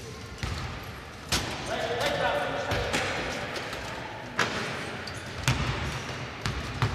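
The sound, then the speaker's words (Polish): Basketball bounces from a wheelchair basketball game in the next hall: a few sharp, spaced thumps over a steady murmur, with a man talking. “więc w sali obok widziałem, że tutaj grają w koszykówkę na wózkach.”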